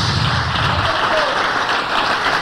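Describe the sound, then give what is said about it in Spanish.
Church audience applauding in praise of the Lord: dense, steady clapping that holds at an even loudness for the whole stretch. “Cuando dan un aplauso de alabanza al Señor.”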